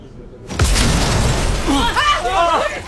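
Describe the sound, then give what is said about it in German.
Windows shatter in an explosion as a sudden loud blast of crashing glass breaks a short quiet. A sustained noisy wash follows, with voices shouting over it. “Die Fenster! Die Fenster! Die Fenster sind explodiert!”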